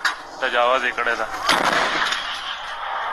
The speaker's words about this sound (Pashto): په دې ویډیو کې خودل کیږي چې ګنی په کونړ کې د طالبانو ځواکونه پر پاکستانی لوري د دیسی توپونو ډزې کوي.